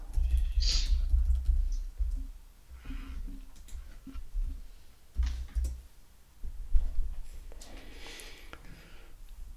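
Someone typing a word on a computer keyboard: scattered key clicks in short, irregular bursts separated by brief pauses, fairly close and distinct.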